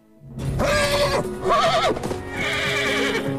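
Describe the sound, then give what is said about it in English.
A horse whinnies as it rears up, a loud, shrill call in three bursts, the middle one trembling and wavering in pitch before a longer, fading final cry. “The horse suddenly rears up,”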